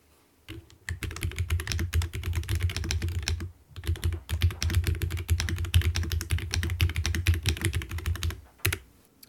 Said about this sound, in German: Also zuerst hört man die schwere Red Dragon mit braunen Schaltern. Sie klingt metallischer und etwas lauter.